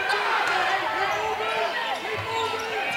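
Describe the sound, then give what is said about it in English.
A basketball is dribbled on a court during a game, with several quick bounces under a voice speaking over steady crowd noise. “Lowe across the timeline with that dribble in the left hand.”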